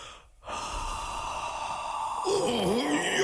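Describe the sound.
A strong, forceful breath blown at someone in a fairy-tale scene gives a sustained, loud, airy whoosh after a brief quiet moment, with a wavering voiced tone joining near the end.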